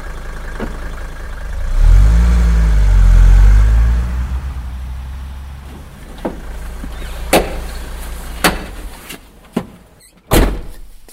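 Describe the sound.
A warehouse door in an industrial estate in Leganés is opened: a deep low rumble swells early, then a few sharp metallic clunks and clicks follow, the last one loudest.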